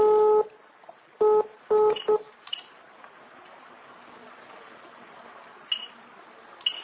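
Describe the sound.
Touch-tone keypad tones dial a telephone number. Four loud dual-tone beeps sound in the first two seconds, followed by quiet line hiss with a few faint clicks.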